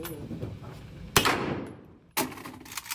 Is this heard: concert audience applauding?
no